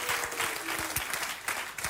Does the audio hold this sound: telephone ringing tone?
no